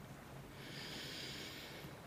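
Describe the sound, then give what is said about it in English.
A slow, deep breath drawn in during a guided meditation, a soft airy hiss that swells and holds for over a second, faint and alone. “Take a deep breath in”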